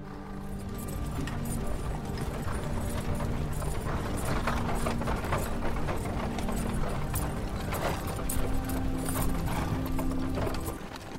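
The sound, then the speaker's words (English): Steady clip-clop of hooves with rattling, clanking mechanical noise as a prison cart rolls across the sands. The dense, continuous clatter stays loud and even throughout, with faint sustained tones underneath. “I'm riding alongside Kadali in the Balarak prison cart across the sands to my vulnerable Tuman Bay.”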